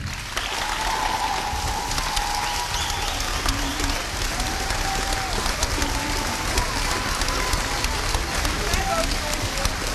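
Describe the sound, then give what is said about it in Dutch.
Applause from an audience at a presentation of flowers, a dense, continuous patter of many clapping hands that holds steady and fairly loud for the whole ten seconds, with faint voices mixed in. “En dan nogmaals applaus”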